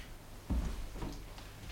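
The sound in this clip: A door being opened for a visitor: a dull low thump, followed by a fainter second knock-like sound about half a second later, over a steady quiet background.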